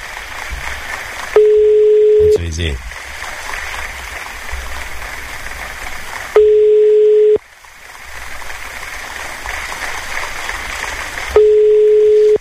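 Telephone ringing tone while a call is placed to a listener: three long, steady, low beeps, each about a second, spaced several seconds apart over a constant background hiss.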